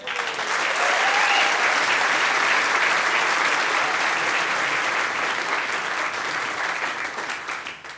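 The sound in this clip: Audience applause welcoming singer-songwriter Abraham Alexander of Fort Worth, Texas, to a live music stage: a loud, sustained, even roar of clapping that holds steady throughout and tapers off in the final moments.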